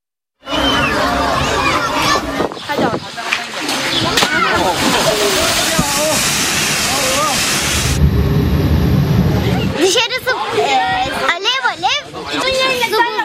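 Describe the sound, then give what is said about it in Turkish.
Pressurized water sprays from a car wash hose as a person cools off under it in Muğla during a heat wave. A loud, continuous hiss and splash runs throughout, with shouting voices over it. “Muğla'da ise denize gidemeyen bir kişi oto yıkamacı da tazikli suyla serinledi.”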